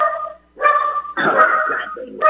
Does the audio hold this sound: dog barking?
yes

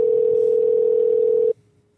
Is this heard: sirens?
no

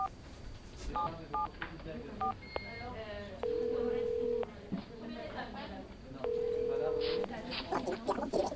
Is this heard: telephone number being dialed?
yes

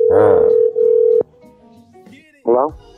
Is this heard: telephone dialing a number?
yes

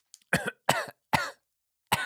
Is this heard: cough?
yes

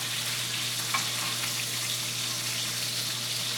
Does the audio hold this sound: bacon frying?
yes

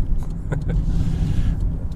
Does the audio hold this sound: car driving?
yes

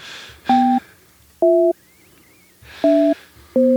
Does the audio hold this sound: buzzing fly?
no

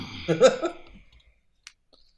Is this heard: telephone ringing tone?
no

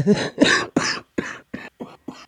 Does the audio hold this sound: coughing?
yes

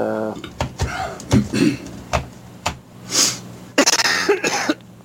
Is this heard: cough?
yes

